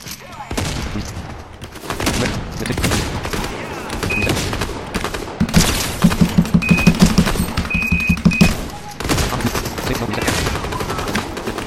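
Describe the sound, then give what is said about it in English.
Machine-gun fire erupts in a rapid, evenly spaced burst of loud cracks lasting about three seconds. Dense, noisy sounds surround it before and after the burst. “now we're being shot at, so.”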